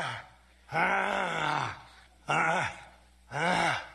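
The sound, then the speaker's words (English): Grunting attributed to Donald Trump, inserted as a sound effect: three drawn-out, strained groans from a man's voice, each separated by a short silence. “Insert Trump grunting.”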